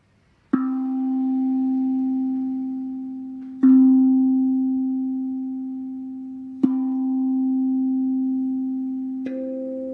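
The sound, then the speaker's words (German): Sustained struck tones played for a root chakra meditation, four strikes that each ring on and slowly fade, with the last strike adding a higher note above the steady low tone. “Spür da gerne mal rein, währenddem ich jetzt diesen Klang spiele, diesen Ton.”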